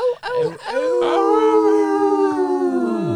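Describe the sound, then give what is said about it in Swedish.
Wolf-like howling: a few short yelping onsets give way to one long, sustained, loud howl that holds a steady pitch and then drops off at the end. “Ja, det ylar vi på.”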